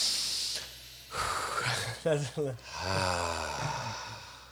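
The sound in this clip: People taking a deep breath together: a long airy inhale that gives way to a breathy, sighing exhale, mixed with voices talking.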